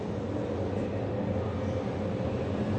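Inside an empty passenger train compartment as the train starts to move, a steady low rumble of wheels and carriage runs continuously at an even, fairly loud level, with no voices.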